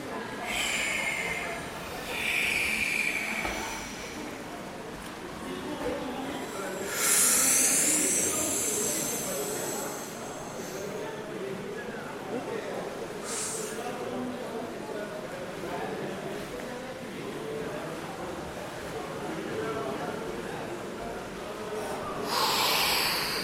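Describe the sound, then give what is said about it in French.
A few hissing breaths during a breathing exercise, the longest a drawn-out, airy full exhale, set against steady low background noise. “On dit, je fais un souffle complet, j'expire.”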